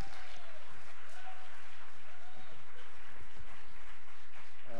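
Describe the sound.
A church audience applauds loudly to welcome a visiting pastor at a Sunday service. The clapping is dense and continuous throughout, with crowd voices faintly mixed in.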